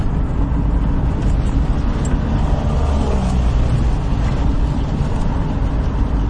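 Steady road and engine rumble of a vehicle driving toward Progreso in western Honduras, a continuous low, even noise with no distinct events.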